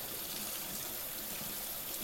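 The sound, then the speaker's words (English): Running tap water pours steadily while dishes are rinsed at a sink, making a continuous, even hiss of flowing water with no voices. “Adding soap or scrubbing as you need to. Soaping and rinsing.”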